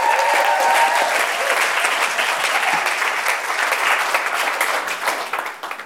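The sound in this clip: An audience at a prayer gathering applauds to welcome a guest coming up on stage. The clapping is loud and dense, sustained throughout and easing slightly toward the end.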